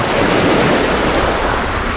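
Storm wind and waves surge around a ship at sea. A loud, dense, unbroken roar of rushing air and churning water fills the whole stretch without a break, and no voices are heard.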